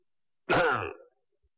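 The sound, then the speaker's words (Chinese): A single cough imitated by a storyteller's voice, standing for someone coughing once in the main hall of a ruined temple. It is one short, harsh burst with silence around it. “就在那破庙的大堂里，那大殿里边，有人咳嗽了一声”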